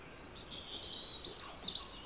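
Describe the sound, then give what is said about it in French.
Faint bird song in a calm setting: several thin, high whistles and chirps begin after a brief quiet start, repeating irregularly over a soft, steady background hiss. “Les oiseaux m'accueillent. C'est très calme.”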